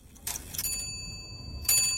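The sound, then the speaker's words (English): Chiming of an ornate gold-decorated clock: a bright strike opens, followed by sustained high ringing tones, and a second strike lands near the end. “An ornate gold-decorated clock chimes.”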